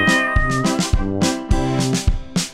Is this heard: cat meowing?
yes